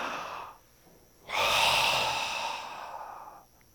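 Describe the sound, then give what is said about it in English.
A voice imitates a great breath drawn in: a single long, loud rushing inhale of about two seconds that follows a quiet moment, with no words spoken. “Jesus drew in this great breath and he just goes,”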